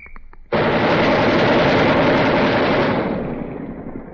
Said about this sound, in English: they've just taken out the 60 caliber which was fired, and they're going to throw the 20 millimeter into it, and we'll hear that in a second.